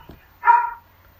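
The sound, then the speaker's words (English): A single dog bark: one short, harmonic, mid-pitched burst of moderate loudness standing alone against a quiet background. “We're getting a barking dog here.”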